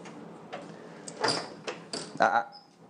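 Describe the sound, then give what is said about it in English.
A door is opened with a few sharp clicks and knocks from the latch and handle, moderately quiet, spread unevenly over a few seconds. “Just opening the door.”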